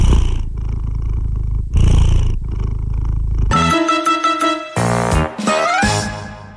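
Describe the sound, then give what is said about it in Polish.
A cat purring in a few rhythmic, low rumbling cycles that rise and fall with its breathing, then giving way to loud, sustained harmonic tones in the second half. “Kotek też, kotuś wystąpił, przepraszam.”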